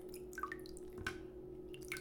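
Water drips faintly from a wet electronic device with a button and a crown after it has been dunked several times. A few sparse, light drops fall over a steady low hum.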